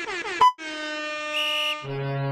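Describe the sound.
A horn honking sound effect from a soundboard: a loud, sustained brassy blare after a short opening burst, dropping to a lower pitch near the end.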